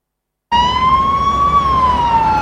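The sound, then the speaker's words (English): A speeding ambulance's siren starts abruptly after a brief silence. It holds one loud, steady wailing tone that rises slightly and then eases back down, with no talk over it. “Inside a speeding ambulance”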